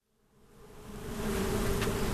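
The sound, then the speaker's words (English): Honeybees buzzing around hives in a small field outside a prison, a dense steady drone that rises from near silence over the first second and then holds strong, with no voices. “Thousands of bees fly around the outskirts of a small field outside Pondville Correctional Center.”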